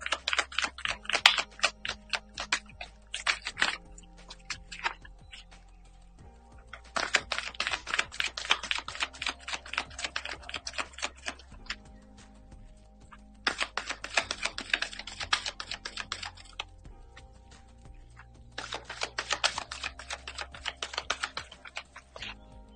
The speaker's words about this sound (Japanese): はい、それでは今日のチャネリングタロットカードを引いていきます。はい、カードシャッフルいたしますので少しお待ちください。